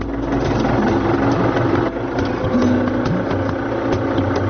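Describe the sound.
A tractor engine runs on a farm, giving a steady, loud, low throbbing rumble with a constant drone that holds evenly throughout, with no voices.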